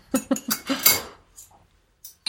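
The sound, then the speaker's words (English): Spoons clink against a teacup as tea is stirred with two spoons: a quick run of bright metallic taps, then a few fainter, sparser clinks after a short lull. “I'm from Yorkshire. That's not, and I've got two spoons. Is that a Yorkshire thing? You always have two spoons to stir your tea.”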